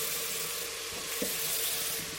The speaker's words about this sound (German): Bisschen braten, umrühren. Kurz.